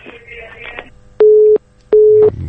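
Telephone busy tone after a call disconnects: two loud, steady mid-pitched beeps of equal length separated by a short gap, following faint background sound.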